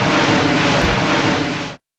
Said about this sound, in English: 8:20 a.m. Flight 77 takes off. American Airlines Flight 77, en route to Los Angeles, takes off from Washington Dulles International Airport.